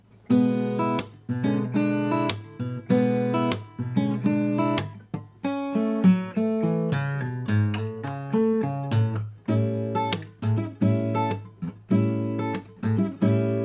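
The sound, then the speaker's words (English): Acoustic guitar plays a lick moving from an E7 chord back to an A7 chord in the key of A: many rapid plucked notes and strummed chords in bright phrases with short pauses, alone without talk. “I'll use an E7 as an example here, and I'll use the lick to come back to an A7 chord. That would sound like this.”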